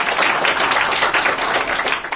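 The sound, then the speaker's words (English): An audience claps for two state governors at an education panel, a dense, steady patter of many hands with no voices on top, easing slightly at the end. “You can clap. Thank you.”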